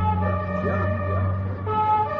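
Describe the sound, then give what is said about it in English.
An ambulance siren sounds at an accident scene where a man lies unconscious among a crowd, giving a steady, sustained tonal wail with layered pitches that holds at an even loudness throughout. “The ambulance is here.”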